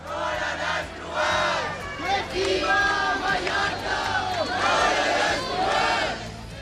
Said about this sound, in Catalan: I aquest que sentiu és l'ambient que hi havia aquest diumenge hora baixa al centre de Palma durant la manifestació contra la massificació turística i sota el lema Mallorca al límit.